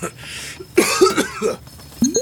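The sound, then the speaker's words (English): A person coughs in a few rough, raspy bursts, loud and close together, with a throaty vocal edge between them. “Can you say that for me again? But this time, don't cough.”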